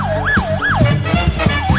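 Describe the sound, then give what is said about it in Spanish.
Ambulance and police car sirens wail loudly, rising and falling in smooth, regular sweeps over low percussive thuds. “Una ambulancia, una patrulla,”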